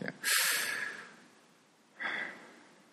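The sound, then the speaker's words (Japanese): A person taking a deep breath: a long, noisy, breathy rush followed after a pause by a second, shorter breath sound, both soft and with no talk. “まず、ね、深呼吸ね。”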